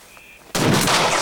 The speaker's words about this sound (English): A shot flies into the rock.